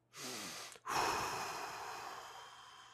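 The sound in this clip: A slow breath out during a five-count breathing exercise for a short meditation: a brief airy breath, a short pause, then a long, steady rush of air that gradually fades. No one speaks.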